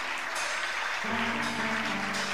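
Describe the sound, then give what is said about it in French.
Applause from a church audience standing to cheer during a worship service, a steady wash of clapping that runs throughout, with a sustained tone entering about halfway through. “Nous allons nous lever pour acclamer très très fort le Seigneur notre Dieu. Juste le temps de l'acclamer.”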